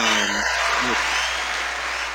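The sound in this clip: A cheering crowd sound effect played on a radio show gives dense, steady cheers and applause. A voice is heard briefly at the start before the cheering carries on alone and fades slightly.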